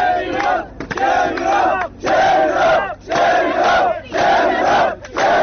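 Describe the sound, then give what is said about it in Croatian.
A crowd at a barbed-wire border fence in Hungary chants a protest slogan in unison. Loud, rhythmic bursts of many voices repeat about once a second, separated by brief dips. “Usledili su aplauz i skandiranje iste poruke.”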